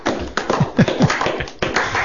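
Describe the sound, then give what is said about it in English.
Scattered clapping from a few hands breaks out in uneven bursts, a thin patter of sharp claps with brief gaps and a fresh surge near the end. “See, I prefer not to speak over his adoring followers and listeners as they applaud.”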